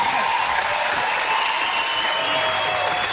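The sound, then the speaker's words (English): Another round of audience applause after a performance, with loud, continuous clapping that stays at a steady level from start to finish. “Another round of applause, because that was just...”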